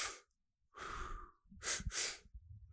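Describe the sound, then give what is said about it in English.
Breathwork demonstration of two breaths in: a long, airy breath, then two quick, sharp inhalations close together. The breathing is audible and there is no talk. “Last night, the one we did was sort of like two breaths in.”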